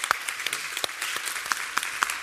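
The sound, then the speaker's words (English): Scattered applause from an audience thanking panel guests: a modest number of hands clap unevenly at a fairly faint level, with individual claps standing out. “please give a quick round of applause for these three great guests.”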